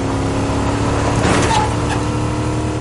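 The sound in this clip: A car driving in a thriller film scene gives a continuous loud engine drone with steady tonal hum lines, swelling slightly in the middle before settling.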